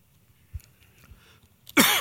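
Throat clearing and coughing from a morning allergy attack: a few faint, scattered throat sounds lead into one loud, harsh burst at the end.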